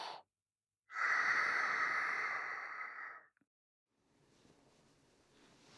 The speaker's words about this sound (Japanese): 深呼吸して。吸って。吐いて。